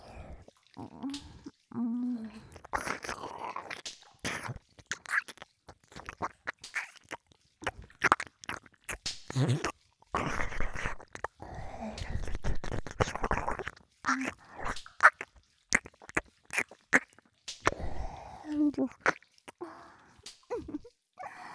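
ASMR ear-eating sounds: wet licking, nibbling and mouth smacks close to the ear. Many soft, irregular clicks and slurps come in clusters separated by short pauses.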